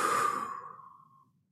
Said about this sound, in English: For all of the sensory, auditorily sensitive folks, I apologize if breathing is killing you right now. Inhale. Exhale.